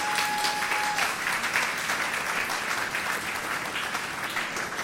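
An audience claps together at a church gathering. The applause is continuous, dense and even, sustained for about five seconds without a break.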